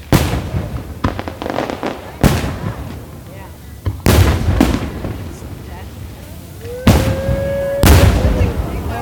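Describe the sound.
Fireworks bursting from barges on the Potomac River: several loud, sharp booms spaced unevenly, each leaving a rumbling tail, with a whistling streak near the end.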